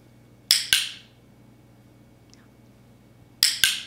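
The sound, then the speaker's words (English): Dog-training clicker snapping twice in quick succession, then a quiet pause, then another sharp double click, each click crisp and bright against near silence. “That was the sound of a clicker. And what a clicker does is it helps us tell the dog that they've done a good job and that they're going to get a reward.”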